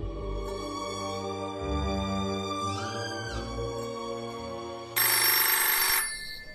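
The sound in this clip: A telephone rings at home while a call comes in, giving a steady, sustained tonal ringing with layered harmonic tones that continues through the whole stretch, with no talk over it.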